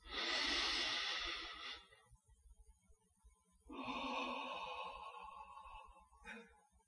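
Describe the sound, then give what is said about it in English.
A person demonstrates a deep breath for a relaxation exercise: a loud, airy inhale lasting about two seconds, a pause, then a long, slow, hissing exhale, ending with a brief faint breath. “just take a deep breath or two. And a deep breath goes something like this.”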